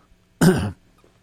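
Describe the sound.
A single short, harsh throat clear, prompted by a tickle in the throat, stands alone against near silence.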